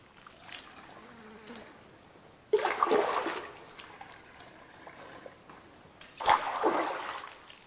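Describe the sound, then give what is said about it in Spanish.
Water poured into goatskin water bags by Tuareg people at a Sahara water hole: two separate surges of splashing, gurgling water rise over a faint background hiss, each trailing off gradually. “Aquí los Tuareg llenan sus bolsas de agua de piel de cabra.”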